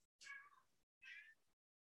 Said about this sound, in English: okay, my cat just showed up. You never meow like that.